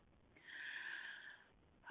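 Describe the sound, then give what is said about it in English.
One deep inhaled breath, a soft airy hiss lasting about a second, followed by the start of a voice. “So take a breath.”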